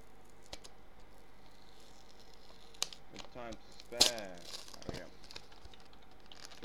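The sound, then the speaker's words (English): A plastic bottle being ripped up gives sharp crinkling and tearing crackles, scattered and faint at first, then bunched in a louder flurry midway. “Oh, sorry, I was just ripping up a bottle there.”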